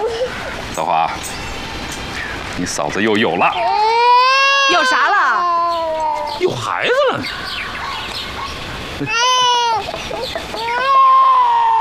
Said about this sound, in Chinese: 哎，好孩子啊，不哭了。哦哦，不哭了。